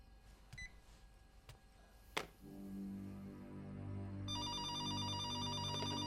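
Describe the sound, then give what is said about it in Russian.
Telephone ringing inside a home: an electronic, trilling ring starts partway through and repeats steadily over low, sustained background tones, with no talking. “Звонит телефон дома.”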